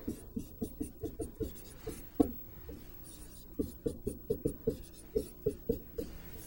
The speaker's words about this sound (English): Remember, if you're having trouble using the shortcut correctly, write out x plus h twice. In fact, I'll do that.